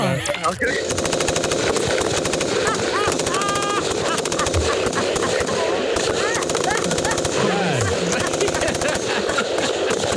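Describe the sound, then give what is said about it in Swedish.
Sound effect of machine gun fire: a loud, rapid rattle of shots that runs almost without a break for about ten seconds. “Du, vänta, jag tror faktiskt att vi har en liten kulspruta här. Så att du ska komma i lite stämning.”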